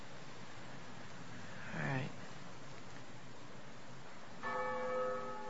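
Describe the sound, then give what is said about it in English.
A bell rings, the first bell, its bright, sustained partials entering near the end after a stretch of steady background noise and a brief, rising chirp. “What's that? It's the first bell.”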